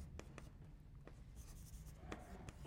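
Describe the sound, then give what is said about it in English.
Faint writing strokes as a lecturer on game theory rewrites something: a few light scratchy taps and drags in an irregular rhythm over a low steady background hum. “I surely can write that at a better angle. Let's try that again.”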